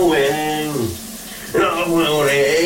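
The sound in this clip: A shower runs with a steady hiss of spray while a colleague sings in it, holding long sustained notes that swell and pause over the water.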